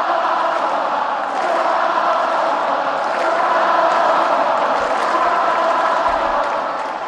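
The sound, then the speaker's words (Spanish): A crowd at the Caja Mágica gives Rafa Nadal an ovation, a loud, sustained roar of cheering and applause that holds steady for several seconds and builds slightly toward the middle. “Ovaciona ahora la Caja Mágica a Rafa.”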